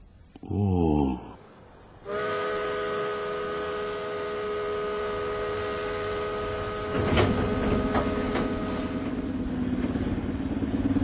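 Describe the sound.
A train pulls out from the last platform of a station with a steady, loud mechanical hum carrying several tonal whines. After a brief rising whine at the start, the drone holds, then swells into a heavier rumble near the end.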